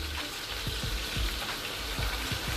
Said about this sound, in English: All right, guys, I'm actually cooking. I'm almost burning up food.